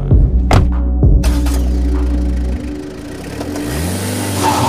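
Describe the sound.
A car engine starting and revving, with a steady, low, throbbing hum and a couple of sharp knocks near the start. The engine pitch climbs in a rev toward the end.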